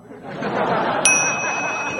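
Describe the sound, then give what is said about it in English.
A bell rings once with a bright, clear ding that lingers and fades slowly over steady background noise. “I did the bells.”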